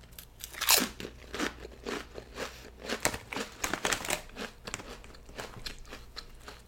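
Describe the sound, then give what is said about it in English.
Loud, crisp crunching as someone bites and chews Chick-fil-A sauce flavored potato chips. Many irregular snaps and crackles follow one another. “Let's try Chick-fil-A sauce chips. It tastes like honey barbecue chips.”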